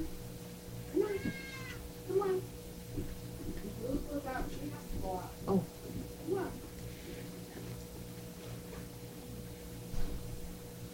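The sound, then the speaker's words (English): A pet cat about to be let outside meows a few times, drawn-out harmonic cries rising and falling over a steady low electrical hum in a quiet house. “Excuse me a minute. I'll let my cat out.”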